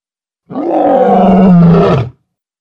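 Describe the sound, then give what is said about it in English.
A loud, sustained animal roar lasting about one and a half seconds, rough and deep, heard alone. “Roar. Screech.”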